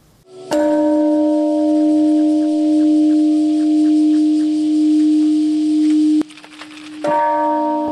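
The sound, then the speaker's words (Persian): A peace bell rings in the peace park in Hiroshima, Japan, on 6 August. A single strike sets off a deep, steady humming tone that sustains for several seconds, then breaks off, and a second strike follows near the end. “زنگ های صلح به صدا درآمدند در پارک صلح روز شنبه 6 اوت.”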